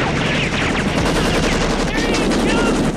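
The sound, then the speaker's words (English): Rapid gunfire traded between a helicopter's gunman and attackers, a dense, continuous crackle of many shots over a constant loud roar. “The chopper's gunman returns fire, but bullets rain down on them.”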